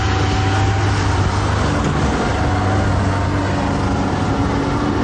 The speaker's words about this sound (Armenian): Մեր նկարահանման պահին, սակայն, շինհրապարակներից մեկից դուրս եկող բեռնատարը փոշին իր հետևից տարածեց ամբողջ ճանապարով։